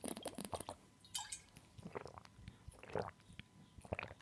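A person takes a sip of a drink: soft, wet slurping and a few swallowing gulps, faint and close, with no talk.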